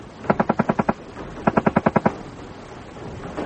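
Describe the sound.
Gunfire from a British Mark II S-10 machine gun: two rapid bursts of seven sharp, evenly spaced shots each, separated by a short pause.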